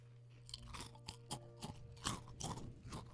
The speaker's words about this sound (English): So Ranch Bugles. They got my seal of approval. They're good. Yeah, they taste like cooler ranch Doritos.